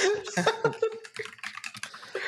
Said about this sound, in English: I'm going to type as we go to your next.